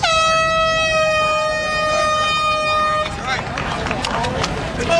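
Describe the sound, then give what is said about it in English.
An air horn starts the National Peace Officers Memorial Run in Toronto with one loud, steady blast of about three seconds, followed by the noise of a crowd. “these officers arriving here in Toronto from right across Canada to start the National Peace Officers Memorial Run just a couple of minutes ago at the sound of the horn.”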